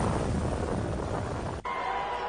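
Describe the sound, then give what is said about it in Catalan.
A helicopter crash sound effect: a loud, dense roaring rumble that cuts off abruptly near the end, leaving a faint steady hum. “Bé, doncs, amb aquest petit accident d'helicòpter donem per finalitzada aquesta retrovisió esportiva.”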